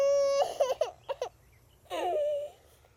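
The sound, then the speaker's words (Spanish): A small child crying: a sustained high wail, then a few short broken sobs, and after a pause another drawn-out cry that slides downward before stopping. “No sabemos de qué dolor se trata que hace llorar al crío. Tal vez ni él lo sepa. Tal vez intenta llamar a alguien elevando su voz, pero al no conseguirlo vuelve a llorar para sí.”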